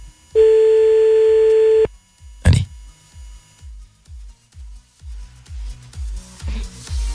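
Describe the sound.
A telephone line tone while a call is placed: a steady dial tone holds for about a second and a half, then a sharp click, then many short, low, evenly spaced pulses.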